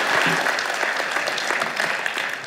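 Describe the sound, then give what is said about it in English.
Audience applause welcoming a guest pastor at a church missions conference: steady, dense clapping from many hands that holds at an even loudness throughout. “would you give me a hand in, in uh, welcoming Phil Johnson, Pastor Phil Johnson?”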